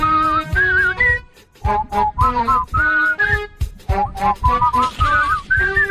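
A person whistles an upbeat song melody in quick, bright, phrased notes, whistling along over a rhythmic backing with steady percussive hits.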